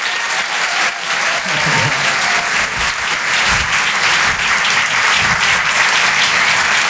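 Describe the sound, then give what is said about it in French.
Audience applause in a comedy club, a dense, steady wash of clapping that stays loud for the whole stretch without a break. “Maximum de bruit, s'il vous plaît, pour Marion Mésadorian.”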